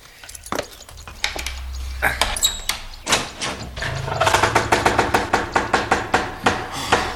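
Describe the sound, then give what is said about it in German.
A key turning in a lock and a door being opened into an old house with furniture under covers: sharp metallic clicks and knocks, then a run of regular, even thuds. No voices. “So, ich will mal aufschließen.”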